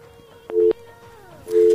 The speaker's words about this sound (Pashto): له بده مرغه چې اړیکه یې قطع شوله. اړیکه یې قطع شوله، لنډه به بله اړیکه راواخلو.